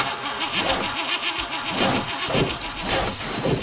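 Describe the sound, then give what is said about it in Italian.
Rough, uneven running of a worn commercial vehicle engine, a continuous mid-pitched rumble with a wavering, sputtering pulse throughout. “Se il tuo veicolo commerciale ormai suona così,”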